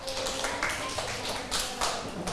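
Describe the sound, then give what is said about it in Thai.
A school class applauds the last group during a lesson, giving a dense, continuous patter of hand claps with a few sharper accents, loud and without clear talk. “ถ้าเห็นด้วยปรบมือให้กลุ่มสุดท้ายด้วยค่ะ”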